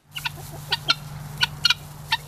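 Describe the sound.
Chickens cluck on a farm in Gainford, Alberta, giving several short, bright clucks at uneven intervals over a low, steady hum.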